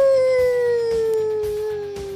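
A single long howl slides slowly downward in pitch, sustained and prominent over a soft rhythmic thumping beat underneath.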